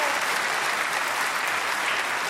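Audience applause welcoming a guest author at a ministry event: a dense, steady wash of clapping that holds at an even level throughout.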